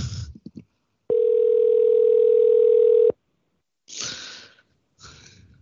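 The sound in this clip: A telephone dial tone after a caller hangs up, one loud, steady, unbroken hum lasting about two seconds, with brief noisy bursts before and after it.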